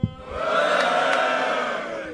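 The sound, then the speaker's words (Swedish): A live audience lets out a loud drunken roar: a dense wall of shouting voices that swells quickly and holds steady for about two seconds before easing slightly. “Kan man få ett fyllevrål från publiken?”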